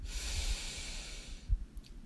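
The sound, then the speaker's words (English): Deep breath drawn in during a guided breathing exercise: a steady, airy hiss of inhalation lasting about one and a half seconds. It then fades, and a soft thump follows near the end. “So breathe in and out. Breathe in”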